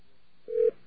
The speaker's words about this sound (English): Okay, it's going to dial tone back. All right, now we're dialing the secret number.